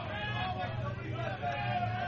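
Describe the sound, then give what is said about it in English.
A crowd files into the stands at a college baseball game between St. Joseph's and Dayton, making a continuous murmur of mixed voices and chatter at a steady level. “Crowd still filing in, both here and over to the arena for graduation over there.”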